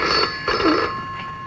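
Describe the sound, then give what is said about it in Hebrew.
A red rotary-dial telephone rings in a few bell-like bursts with a steady, bright metallic tone. It sounds fairly faint, with no voices. “טלפון חוגה, אני מזהה את הטלפון חוגה. כן, היה טלפון, זה הטלפון האדום דווקא.”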